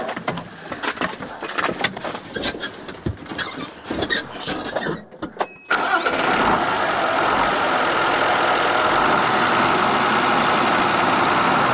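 A tractor engine works through the night in a grain field. Irregular mechanical clatter gives way to a loud, steady engine drone that runs without a break to the end.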